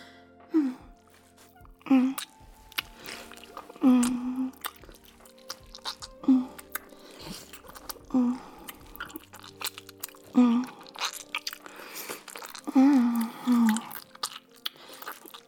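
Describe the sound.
Someone eats food, with bites and crunchy chewing in several separate bursts. Soft hummed murmurs sit between the bursts, and the sound stays fairly quiet throughout.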